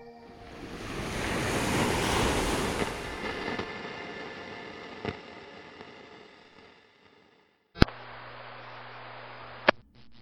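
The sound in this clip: Ocean waves wash at low tide, a broad surf roar that swells for the first few seconds and then slowly fades. A quieter, steady hiss follows, broken by a couple of sharp clicks. There is no talk.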